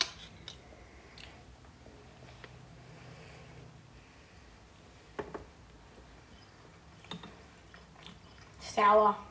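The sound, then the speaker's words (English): Raw Milo malt chocolate drink powder is chewed in soft, dry, faint mouth sounds with a few small clicks, ending in a short louder voiced sound. “Ready? We're going to try it. Like, if you don't eat Milo raw, you're not proper Aussie.”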